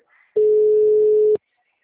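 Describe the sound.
A single telephone call tone sounds as a steady mid-pitched beep lasting about one second, clear and alone with no talk.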